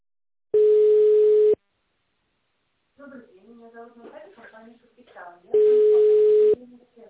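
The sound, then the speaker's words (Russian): Two steady one-second bursts of a telephone ringing tone sound while a call is transferred to the duty manager, separated by a few seconds of speech between them. “Звонок переводится на дежурного менеджера.”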